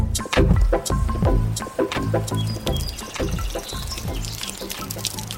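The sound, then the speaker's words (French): Water pouring and splashing as vegetables such as lettuce, courgettes and carrots are watered in a garden, a continuous rushing spray broken by uneven spatters and drips. “qu'est-ce que t'arroses là Ah ça c'est mes légumes, j'essaie de faire pousser des salades”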